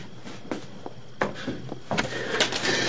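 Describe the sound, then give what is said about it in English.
A kitchen cabinet holding coffee and sugar jars is opened: a few sharp clicks and knocks, then a rising rustle of handling noise. No one speaks. “Open the cabinet where the coffee and the sugar jars are. I don't want... Just open it!”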